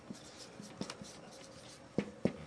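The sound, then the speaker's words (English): Writing on a board during a theology lecture: faint, scratchy strokes with a few soft taps, ending in two sharper knocks. “tell me if you can't read this. I'm sure I'm writing real big, so.”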